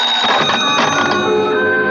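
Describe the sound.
A telephone bell rings steadily for about two seconds, with a bright, continuous metallic trill that stays at an even loudness and has no voices over it.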